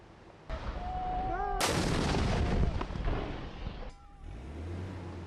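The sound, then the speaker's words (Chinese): Artillery and heavy machine-gun fire roar during ground fighting in Taiz province, southwestern Yemen, with a few sharp, heavy blasts breaking into a dense, rumbling crackle of shots that sustains loudly before another blast. “在也门西南部塔伊兹省，也门政府军持续向胡塞武装阵地发动炮火，并使用重机枪等武器向胡塞武装发起打击。”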